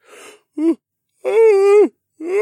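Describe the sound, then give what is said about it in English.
A voice imitates a stable boy's huge yawn: a breathy intake, a short voiced note, then a long drawn-out groaning tone that dips and levels off before trailing into another vocal sound. “But I'm not tired, the stable boy said, and then contradicted himself by letting loose a huge yawn.”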